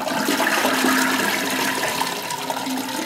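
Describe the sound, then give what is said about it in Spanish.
Toilet cistern flushing: a steady rush of water that runs loud and unbroken for the whole three seconds, with no voices. “en vez de poner un baño seco, ponés el ruido de una cisterna.”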